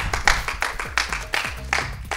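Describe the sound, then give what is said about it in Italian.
Audience applause at an Italian event, following a presentation about an activity: a slow, regular rhythm of distinct, evenly spaced claps over a low tonal background. “Un bel applauso. Un bel applauso per questa attività.”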